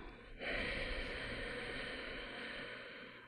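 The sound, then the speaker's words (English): A slow, deep breath drawn in and let out during a calm breathing exercise: a long, steady, breathy rush of air that starts abruptly and fades only slightly as it goes. “taking a few breaths to center into our body, taking a deep breath in and letting go”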